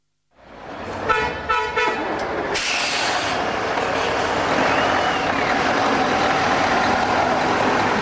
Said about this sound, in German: Der Grenzübergang Astara. Lastwagen kämpfen sich über die schlammige Piste, versinken in den knietiefen Pfützen und schaukeln wie die Fischerboote draußen auf dem Kaspischen Meer.